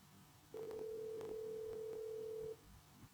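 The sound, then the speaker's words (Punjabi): Steady telephone tone heard after a call disconnects: a single continuous mid-pitched tone holds for about two seconds with a few faint clicks over it, then stops. No one speaks. “Phone disconnect ਹੋ ਗਿਆ ਜੀ ਤੁਹਾਡਾ phone, ਤੁਸੀਂ ਕਾਲ ਦੁਬਾਰਾ ਕਰੋ ਤੇ।”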